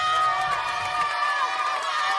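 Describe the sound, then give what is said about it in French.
A crowd in Kagamangoulou shouts and cheers to greet the arrival of a new 400 kVA electrical transformer. The high, excited voices blend into one continuous, loud roar. “Cris, acclamations, c'est de cette manière que la population de Kagamangoulou a accueilli l'arrivée de ce transformateur.”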